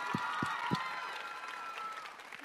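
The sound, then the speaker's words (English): Audience applause for a male performer just after a song: a steady, even patter of many hands clapping that holds at a fairly low level through the whole stretch, with a few sharper claps standing out near the start. “Yay, give him a big hand.”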